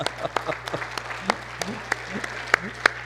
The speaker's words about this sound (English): all this clapping stuff in church. But then I got used to the fact that there is such a thing as a clap offering to the Lord.